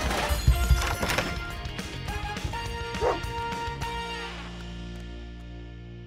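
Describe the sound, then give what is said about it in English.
A dog barks in a few short, sharp bursts among knocks and thudding sounds, the noise easing off toward the end. “Come here, Tiny. Let's get your leash on.”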